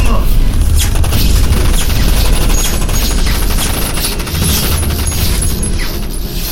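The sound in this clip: Heavy gunfire sounds as bullets are shot in a dense, continuous barrage. The loud, rapid crackle of fire runs without a break for several seconds.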